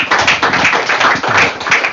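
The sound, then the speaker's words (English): An audience gives a round of applause at an event promoting a boxing fight, a steady patter of many hands clapping at full strength throughout. “I believe they deserve a round of applause for that.”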